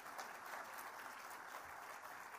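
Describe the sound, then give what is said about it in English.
Faint, steady audience applause at a radio awards ceremony, a continuous wash of many hands clapping for the finalists, even in level and with no voices on top. “Let's have a round of applause, please, for our final five in the big one.”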